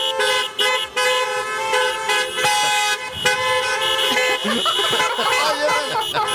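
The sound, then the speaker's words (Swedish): Car horns honk a Christmas song tune together: loud, sustained toots step through the melody's changing notes in a steady rhythm, with noisy outdoor sound beneath. “Och vi ska nu tuta igång en klassiker. Vi ska göra Jingle Bells med tuter.”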